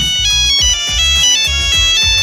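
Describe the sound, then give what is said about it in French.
Mobile phone ringtone from a Nokia 3310 handset: a bright, repeating electronic melody over regular low thumps, loud and steady for the whole clip, with no talking. “C'est aussi en 2000 qu'est dévoilé, on disait, le Nokia 3310, un téléphone mythique et indestructible.”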